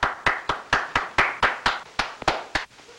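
Sharp hand claps from one person at a crowded dance, a steady rhythm of about four claps per second, many in a row, each crisp and loud, the final few slightly uneven.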